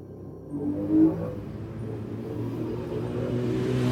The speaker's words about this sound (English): If it's not a mower, it's a dirt bike